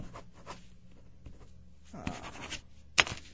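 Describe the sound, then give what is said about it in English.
Pen writing on paper, a quiet, continuous scratchy rubbing of strokes with a few firmer scrapes and a sharper tick near the end. “Man, I'm going to put down my pen so maybe you can hear what I'm writing.”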